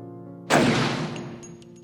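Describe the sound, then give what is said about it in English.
A single gunshot from a pistol loaded with one bullet in an audio drama: one loud, sharp blast that breaks a quiet tonal backdrop, followed by a long, slowly fading tail. “The other, Rooks, as he puts a single bullet in his gun, points it to Gabriel's head and says, "Death comes to us all," and pulls the trigger.”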